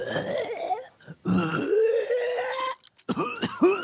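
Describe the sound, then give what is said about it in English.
A person acting out a sick character in a role-playing game voices an exaggerated, gurgling cough with retching, throat-clearing croaks. Several strained, wet bursts are broken by short pauses. “I'm going to mute the mic and cough up a rat.”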